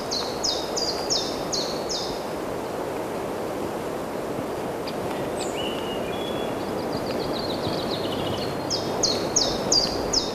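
Birds in green trees give short, high chirps in quick runs near the start and again near the end. The chirps are fairly faint over a steady rushing noise.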